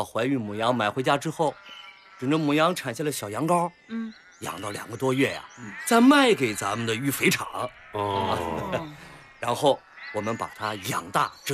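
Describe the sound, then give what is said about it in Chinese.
Sheep bleat at a farm breeding pregnant ewes, with many wavering, quavering calls coming in quick bursts and overlapping one another, loud and irregular. “你看那羊肥的，啊， 这么多羊”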